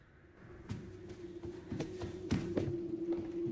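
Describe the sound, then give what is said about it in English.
Quick, creeping footsteps cross a landing as several light thuds in an uneven rhythm. The steps are fairly faint over a steady low hum. “She pauses for a moment, then creeps quickly across the landing.”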